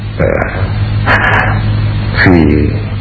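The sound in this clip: A dog barks three times, each a short tonal yelp spaced about a second apart over a steady low hum.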